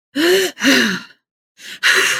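A deep breath in and out, loud and raspy with a voiced, groaning sigh tone. Two long bursts are followed by a pause and then two more breaths.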